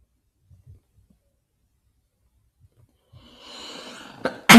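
A loud sneeze comes after near silence and a few faint thumps. A drawn-in, breathy build-up leads to a sharp, forceful burst that is cut off at the very end.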